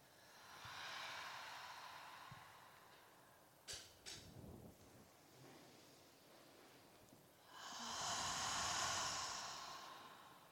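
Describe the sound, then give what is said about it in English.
Deep calming breaths with big open-mouth exhales come as two long, breathy rushes of air separated by a quieter stretch with a few small clicks and soft breathing. “So you're going to inhale at your own pace. And then when you're ready, open your mouth, big exhale. Nice. Two more times.”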